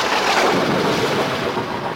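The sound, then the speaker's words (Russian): Heavy, large raindrops drum on a roof in a dense, unbroken wash of hiss and patter, steady and loud throughout. “По крыше барабанили тяжелые крупные капли. Сначала редко, потом все чаще, наконец, с каким-то воющим гулом.”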